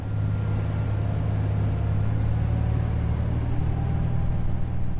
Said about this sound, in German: Dann setzt er den Kurs Richtung Yachthafen von Albufeira und gibt Gas.